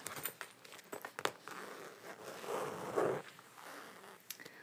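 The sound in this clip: Crisp rasping zipper pulls on a bag with a gold zipper, a run of quick scratchy zips and small clicks that thicken into a longer, denser drag near the middle, alone with no talk.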